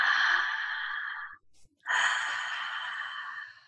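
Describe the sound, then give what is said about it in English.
A deep breath is drawn into the ribs as two long, airy breath sounds separated by a short silent pause, each fading gradually. “take a deep breath into your ribs”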